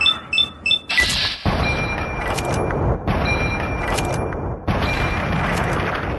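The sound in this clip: Gunfire in a video game battle: a run of short electronic beeps, then a few loud blasts, each followed by a sustained roaring rumble.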